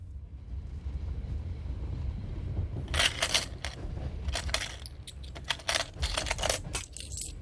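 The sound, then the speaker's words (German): Coins are counted in a cash register: after a quiet start over a soft low rumble, bursts of metallic clinking and rattling come in many quick, uneven taps. “Hab nur das Geld in der Kasse nachgezählt.”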